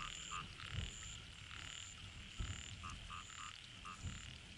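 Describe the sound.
A striped toad croaks in short, guttural clucking calls. Several scattered croaks come over a steady high hum, all faint.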